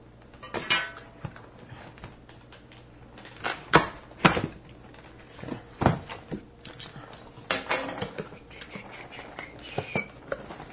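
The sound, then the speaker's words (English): A knife cuts open a cardboard board game box: irregular scraping, crunching and crackling bursts with occasional sharp clicks, loud and soft strokes uneven in rhythm, no voices. “Need a knife? Need a knife. I'm going to cut the box.”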